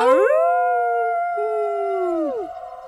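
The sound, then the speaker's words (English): Wolves howl in a desert waste. A long, loud, tonal howl holds steady for about two seconds, then bends downward in pitch and fades out. “The sound that has plagued my dreams from the Palatine to the Belt finds me in the desert waste. The sound could only come from a legion escorting the Reaper, the Howling Wolves.”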